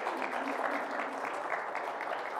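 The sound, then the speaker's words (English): Steady round of applause from a church audience for mothers standing on Mother's Day: dense, continuous clapping that holds an even level throughout. “And would our mothers please stand? I want to share a blessing with you, and you can give them a round of applause.”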